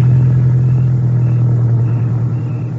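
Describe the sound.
A car engine runs while the car drives, giving a steady, loud, low rumbling hum that stays even throughout, with no revving or gear changes and no voices.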